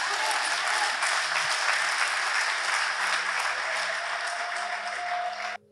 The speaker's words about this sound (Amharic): ክብር ለእግዚአብሔር፣ አጨብጭቡ ለእግዚአብሔር።